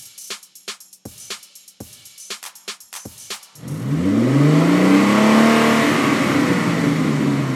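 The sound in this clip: A Lamborghini sports car engine revving. A few sharp, separate clicks come first, then a loud, sustained engine roar whose pitch climbs and wavers for several seconds.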